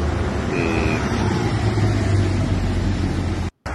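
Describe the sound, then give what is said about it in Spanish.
A car carrying a public figure drives off, heard as a continuous, fairly loud rumble of engine and road noise that holds steady, then cuts out briefly near the end. “este era Alejandro Toledo en un vehículo, seguramente saliendo de.”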